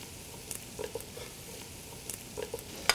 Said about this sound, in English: We're going to add our beans.